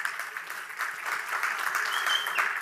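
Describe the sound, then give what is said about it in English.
Applause from a church audience at a Labor Day weekend service in Helena, a steady wash of many hands clapping without pause for a couple of seconds. “Give yourselves a hand, eh?”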